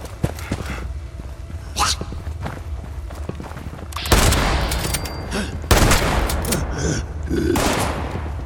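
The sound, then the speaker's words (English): Video game gunfire sounds as many irregular shots and short bursts, sharp and fairly loud, with heavier volleys partway through over a constant background. “So, some shooting going on in there. It's all the shooting.”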